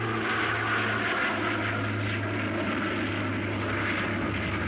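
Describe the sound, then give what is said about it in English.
Steady engine drone of a Bristol Britannia jet-prop airliner in flight from Bristol towards Libya on its first overseas trip. A continuous, even, broad hum holds without break, with no voices. “The Britannia sets course from Bristol for its first ever overseas flight to Libya, only 4.5 flying hours away.”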